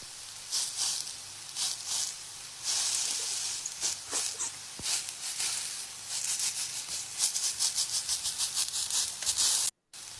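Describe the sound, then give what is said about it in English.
Pepperoni and Little Smokies sizzling as they cook, a crackly, fluctuating hiss with scattered pops that cuts out briefly near the end. “What are they cooking? What dish are they making? Pepperoni and Little Smokies.”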